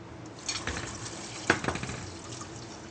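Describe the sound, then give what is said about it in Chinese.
Water is poured into a cooking pot already holding ingredients and cashews for a pumpkin dish, giving a soft running gush with a few louder splashing surges. “把水放进去。”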